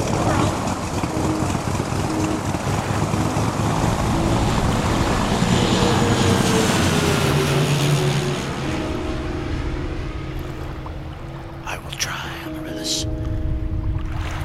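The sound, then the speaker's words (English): An aeroplane engine starts with a loud, broad roar that fills the whole stretch. In the second half a steady droning engine tone emerges and settles in. “Quan Yi, start the aeroplane.”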